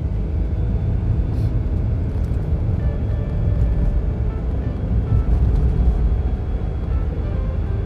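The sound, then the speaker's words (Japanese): Car on a drive, a steady low rumble of engine and road noise that holds constant throughout with no talking. “うんなので本当に楽しいんですけど一歩間違えると死ぬ危険性があるので 注意して運転しております”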